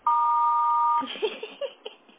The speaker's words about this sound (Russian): Если хотите оставить ему голосовое сообщение, пожалуйста, говорите после звукового сигнала.